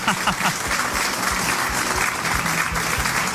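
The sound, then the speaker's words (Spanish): Audience applauding a guest at a Halloween special, a steady, dense clatter of many hands with sharp individual claps standing out, holding even in loudness throughout. “Vamos a darle un aplauso para José. Bien fuerte ese aplauso.”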